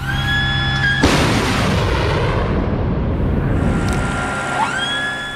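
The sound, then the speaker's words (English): A Patriot air defence missile fires to intercept a ballistic missile attack in Ukraine. A sudden loud blast turns into a sustained rushing roar, with a wailing siren heard before the launch that rises again near the end. “that is the sound of a Patriot air defence missile being fired to intercept a ballistic missile attack”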